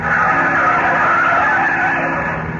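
A taxi in Cairo swings sharply to the right at a street corner, its engine giving a loud, steady roar with a rough, hissing edge of tyre noise that holds for a couple of seconds.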